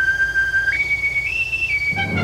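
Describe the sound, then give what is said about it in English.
A small boy blows an Oscar Mayer wiener whistle, heard alone: one sustained shrill tone that steps up in pitch twice, dips slightly, then cuts off. “a small boy blows an Oscar Mayer wiener whistle”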